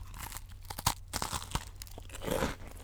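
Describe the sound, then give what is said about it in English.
Crisp crunches of someone biting into and chewing an Oreo cookie held right at the microphone, a rapid series of sharp, dry cracks and crumbly crackling with no talk. “Here's the Oreo cookie on the microphone. Perfect. Take a bite.”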